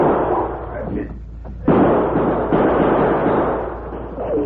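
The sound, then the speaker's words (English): Gunshots fired toward men sheltering behind a barn corner in a western drama, heard as abrupt sharp reports that cut in over a steady low hum. “the bullets from Sleepy and Max's guns whined toward them”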